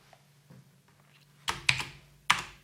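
Typing on a computer keyboard: a few sparse keystrokes, faint at first, then a louder cluster of crisp clicks toward the end.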